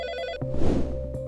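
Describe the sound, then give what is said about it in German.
A telephone rings with an incoming call at a newspaper office in Passau. The steady electronic ringing tone carries bright harmonics and runs through the whole short clip, thickening briefly in the middle. “Bei der neuen Presse in Passau geht ein Anruf ein.”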